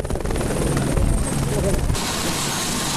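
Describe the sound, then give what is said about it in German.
A helicopter carrying supplies to Namche Bazaar in earthquake-struck Nepal gives a loud, steady whirring with a rapid rhythmic rotor chop, its tone changing abruptly about two-thirds of the way through. “Sie erreichen einen Hubschrauber, der Versorgungsgüter nach Namche Bazaar bringt”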